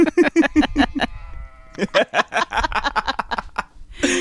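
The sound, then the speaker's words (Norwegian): Sheep bleating in many short, wavering, overlapping calls, breaking off in a brief pause near the middle, then returning in another dense run of bleats. “jeg sa hei, og sauene svarte”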